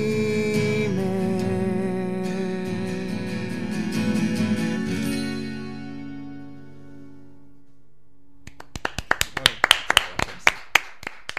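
A single person claps from a studio booth after a twelve-string guitar performance. Ringing guitar chords sustain and fade to near silence, then a run of sharp, crisp hand claps follows at a steady, quick rhythm.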